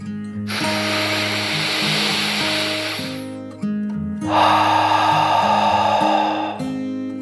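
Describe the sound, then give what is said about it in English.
A deep breath drawn in and then blown out, two long airy rushes of a few seconds each with a short gap between them, over soft background music. “Kit took a deep dragon breath, in and out.”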